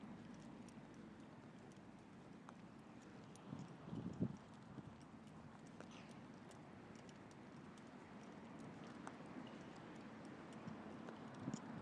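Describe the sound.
A horse trotting, its hooves giving many light, rhythmic clip-clops that stay faint over a low, steady background hush.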